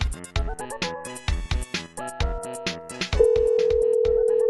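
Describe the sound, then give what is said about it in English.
Telephones ring in a live radio studio, a quick repeating electronic ring pattern that gives way to a long, steady, unbroken tone. “Phones are ringing. You can tell it's live when the phones are ringing.”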